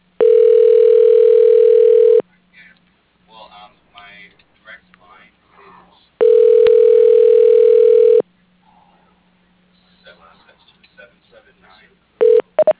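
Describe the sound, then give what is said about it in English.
Telephone ringback tone plays while a call is transferred to extension 101. There are two long, steady two-second rings separated by a gap with faint voices, then the brief start of a third ring at the end. “When you hear the name of the person you wish to reach, press the pound key and you will be transferred. Ray Stone. For your reference, you are being transferred to extension 101.”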